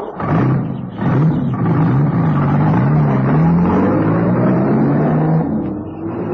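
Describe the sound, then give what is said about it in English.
A car engine revs as the car drives off, a loud, continuous motor drone with a low, wavering pitch that climbs steadily toward the end. “You drive off now to New Hartford.”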